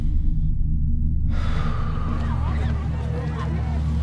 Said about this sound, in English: Take a deep breath.